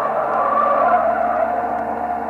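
Tires squeal and skid loudly as a car speeds out of control at about 85 to 88 miles an hour with no brakes, a harsh continuous screech holding steady throughout with no voices.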